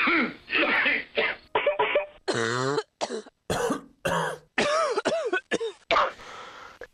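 Harsh coughing with throat clearing from someone with flu at its seasonal peak, a long run of many loud, chesty bursts, some rough and voiced, separated by short gaps, with no talk.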